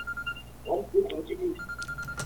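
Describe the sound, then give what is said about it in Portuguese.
A telephone tone sounds over a phone line: a faint, steady high beep at the start and again near the end, with a brief muffled murmur between. “Telefone hoje, graças a Deus, não para.”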